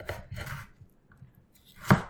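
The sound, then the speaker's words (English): A knife cutting food in half lengthwise: a short run of soft cutting strokes at the start, a near-silent pause, then one sharp, loud chop near the end. “and then I think I'm going to cut it in half lengthwise. And then again, each half I'm going to cut in half lengthwise.”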